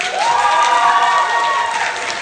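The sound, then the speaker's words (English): School board meeting audience applauding and cheering as a vote passes: a dense wash of clapping with a sustained cheer rising over it, loud and steady before easing slightly at the end. “this is what it sounded like when they actually took a tally of where the school board members were and took the vote.”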